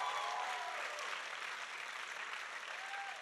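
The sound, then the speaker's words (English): A church audience gives a big round of applause for its lead pastors, an even, sustained wash of clapping that stays at a fairly quiet level throughout. “In fact, can we just go ahead and give them a big round of applause?”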